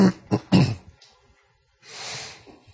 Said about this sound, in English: Hopefully you won't be too distracted by throat clearing.